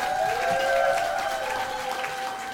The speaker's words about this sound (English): Ladies and gentlemen, please give it up for your next comedian here at Ellie's Comedy Club.